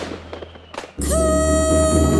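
Fireworks explode at a Territory Day celebration: a few sharp pops and cracks come first, then after about a second a loud, continuous crackling roar with a steady whistling tone takes over.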